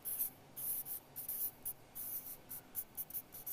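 Handwriting on a board during a church teaching, heard as many short, faint scratchy strokes in an irregular rhythm, with brief gaps between words.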